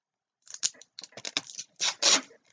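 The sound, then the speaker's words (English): Packing tape pulled off the roll and pressed onto a cardboard box: a quick run of short rasping strips, then two longer, louder tearing rips. “And then I'm going to just close this box up. And I'm going to put a piece of tape on it.”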